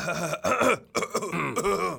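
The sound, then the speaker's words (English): Rough throat-clearing coughs from a person, a few voiced, gravelly bursts in quick succession, fairly loud and alone. “I'm just coughing”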